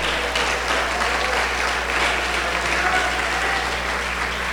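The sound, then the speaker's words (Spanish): Applause from an audience, a dense, even clatter of clapping that holds steady at full strength for the whole span with no breaks or voices rising above it. “Denle un aplauso a Cristo.”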